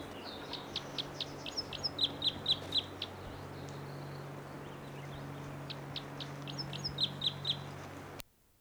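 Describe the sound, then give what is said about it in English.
Bird calls from a tree above a camp: repeated bursts of high, bright chirps in two clusters over a steady low hum, ending abruptly. “Bird's right in the tree above the camp. And this is it.”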